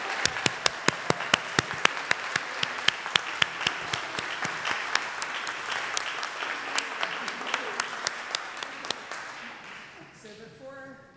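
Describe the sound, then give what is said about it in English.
An audience at the First Unitarian Universalist Society of San Francisco applauds new members with steady clapping and crisp, evenly spaced beats, tapering off near the end as a few soft tones come in. “let us all please put our hands together to welcome the newest members of the First Unitarian Universalist Society of San Francisco.”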